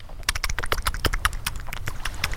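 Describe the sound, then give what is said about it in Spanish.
Wet flip-flops slapping while someone runs in a damp, humid place, many quick, sharp smacks in an uneven, hurried rhythm, loud and close together throughout. “Son las chanclas mojadas.”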